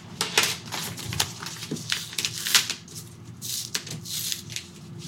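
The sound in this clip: Paper rustling and crinkling as a mailed envelope is opened and handled, with an old bookmark inside. Many short, crisp crackles and scrapes come in uneven bursts, fairly soft, with no talking.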